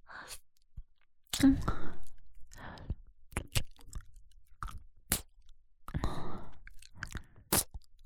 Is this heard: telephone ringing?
no